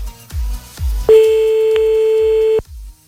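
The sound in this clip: A steady electronic telephone line tone sounds while a caller is being dialed for a late-night phone-in. The tone holds for about one and a half seconds over a regular low rhythmic beat.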